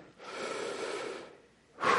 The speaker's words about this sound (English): Let's take a breath.